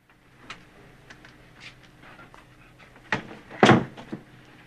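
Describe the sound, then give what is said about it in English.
A door opens with a run of faint clicks and light knocks, followed by two louder thuds of the door and handle in quick succession, then quiet. “Bender is back in the room Vernon put him in, when suddenly the door opens.”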